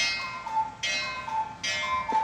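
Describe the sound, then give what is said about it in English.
A cuckoo clock sounds in a house: a few short, tonal calls ring out over a steady hiss, with no voices. “Is that a cuckoo clock? That was the cuckoo clock.”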